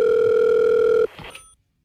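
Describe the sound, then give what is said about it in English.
A telephone line gives a loud, steady dial-tone hum while someone sets out to dial a 1-900 number. The tone cuts off abruptly after about a second, leaving a few faint clicks and a short rustle before silence. “Hang on, let me dial. Hold on. 1-900 warrant.”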